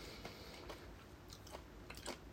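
Faint, crisp chewing of takana pickled mustard greens, eaten during a meal of gobo-ten udon. A few soft crunchy bites come at uneven intervals over low background noise, with no talk.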